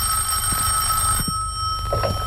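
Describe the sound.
Telephone ringing for an incoming call, a steady electronic ring of high sustained tones over a low hum, continuing through the short clip without a break.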